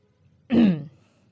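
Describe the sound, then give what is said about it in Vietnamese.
A man clears his throat once: a short, rough, low growling burst that stands alone against near silence. “Bố của Nam hắng giọng,”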